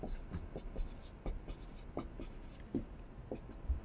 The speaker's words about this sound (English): I'll write down the obvious while you think of the multiplier.